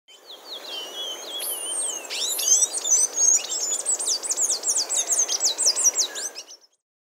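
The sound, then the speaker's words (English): Palm tanager calls: many rapid, high-pitched chirps and short twittering notes in a dense, fairly steady stream for about six seconds, fading out at the end. “Palm tanager.”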